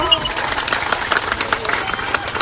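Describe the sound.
Crowd claps for the chairperson of a Musahar settlement at a community gathering: many quick, irregular hand claps with uneven peaks, blended with a murmur of people talking.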